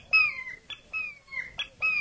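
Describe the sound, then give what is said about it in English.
Hawk call blown on a handheld bird caller: several short, high, descending squealing cries repeated in quick succession, with brief gaps between them. “all that is the way that a hawk goes or sounds or calls at the respective time.”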